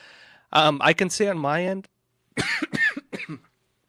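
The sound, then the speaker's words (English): Coughing after choking on a drink, in two separate bursts of several harsh coughs mixed with throat clearing, with a short silence between them. “excuse me, I'm choking on my drink”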